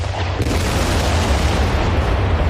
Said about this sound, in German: Vor knapp 2 Jahren wurde die Rahmedetalbrücke in Lüdenscheid gesprengt. 3, 2, 1, Zündung!